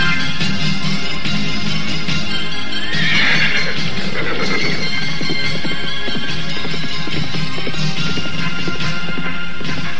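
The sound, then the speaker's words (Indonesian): Horses neigh and gallop, with a dense, rapid patter of hooves running throughout and one loud whinny partway through that falls in pitch. “kedua remaja tersebut telah berderap di atas punggung kuda mereka.”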